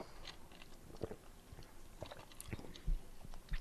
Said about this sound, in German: Oh, erstmal noch einen schönen Schluck, schönen Eiskaffeeschluck.